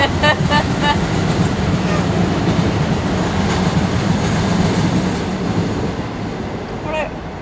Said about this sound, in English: And excuse that train.